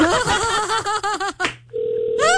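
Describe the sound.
A telephone call being dialled and ringing gives a short, steady electronic tone after a stretch of lively voices. The voices come back at the very end.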